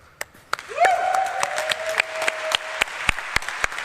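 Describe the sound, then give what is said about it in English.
Audience applause at a conference talk, scattered sharp claps ringing out one by one at uneven intervals, with a sustained whistle-like tone that swoops up early on and then holds steady before fading. “I'd like to give an applause for organizers and volunteers and all people that let it happen.”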